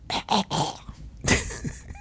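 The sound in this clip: Someone hawks up phlegm with rough, raspy throat-clearing: three quick harsh bursts, then a longer scraping hack after a short pause.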